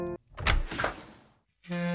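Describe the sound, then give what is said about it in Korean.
A window is opened at home: a burst of thumps and a scraping, rushing slide lasting about a second, then quiet. Brief steady tonal sounds come just before and after. “엄마, 창문을 왜 열어요?”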